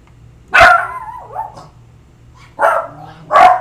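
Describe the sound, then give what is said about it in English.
A dog gives three sharp, loud barks, with a short whimpering whine just after the first and quiet gaps between them. “That's a dog. A stupid one.”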